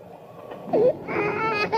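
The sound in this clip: A hungry infant crying in short, strained wails with a sharp bend in pitch near the middle, moderately loud and alone.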